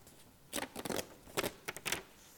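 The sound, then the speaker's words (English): The last page of a paper brochure torn off at a Sunday church service: a few short, crisp ripping bursts in quick succession, fairly faint. “So the last page of this brochure is for you to tear off. So go ahead and do that now. Tear this off.”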